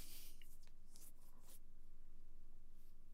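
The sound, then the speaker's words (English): A pen draws on paper with faint, light scratching, a few quick strokes early on that fade into a steady low hum. “I'm drawing a Mont Blanc right now.”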